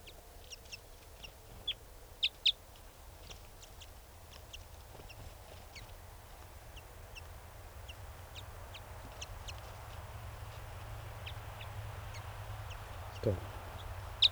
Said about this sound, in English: they've been giving greeting songs to one another.